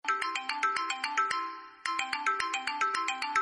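Telephone ringtone playing a melodic electronic tune of repeating bright notes in quick rhythm, with a short pause before the same phrase starts again, loud and alone with no voices.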